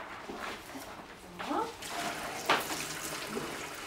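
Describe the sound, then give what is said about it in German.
Tap water running while lettuce is washed: a soft, continuous watery hiss at low volume, broken by a few brighter splashes and clatters. “Magst du den Salat waschen?”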